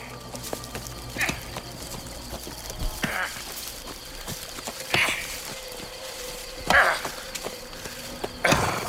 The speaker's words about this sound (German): So ließ ich das müde Tier durch das Dickicht der Virginia-Eichen zum Haus der beiden traben.